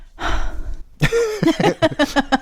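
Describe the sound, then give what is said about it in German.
Heavy breathing from a colleague: one long, noisy breath, then a run of short, pitched, breathy pulses in an uneven rhythm, fairly loud. “Es ist jetzt nicht so, dass die Kollegin genau deswegen gerade so schwer atmet”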